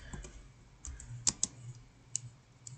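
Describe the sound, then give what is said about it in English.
Faint clicks of typing on a computer keyboard: a few sharp, irregular keystrokes scattered over quiet background hiss. “I was gonna type in she”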